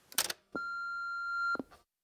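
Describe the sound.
An answering machine beep on a message line: a single steady electronic tone lasting about a second, clear and alone, with brief noisy clicks just before and after it.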